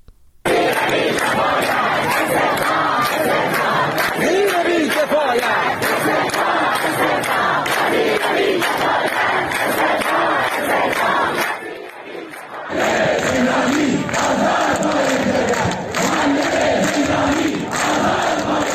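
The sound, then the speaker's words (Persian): Chanting crowd of protesting teachers in Shiraz and Sanandaj, Iran, loud and sustained throughout, with a brief dip in volume near the end before the chanting surges again. “این بخش صدای معترضان در شهرهای شیراز و سنندج است.”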